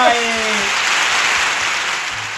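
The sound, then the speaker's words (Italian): Audience applause at a live show, a steady, loud wash of clapping held evenly throughout, with a short voice heard at the very start. “Grazie, grazie, grazie degli applausi.”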